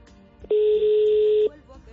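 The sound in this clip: A single steady electronic telephone tone sounds after a call is cut off, lasting about a second with an abrupt start and stop over a quiet background.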